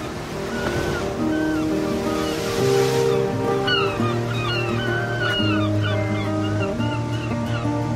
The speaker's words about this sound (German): Ich gehe jetzt mal ganz nah ans Wasser, damit du auch was von dem Klang hast.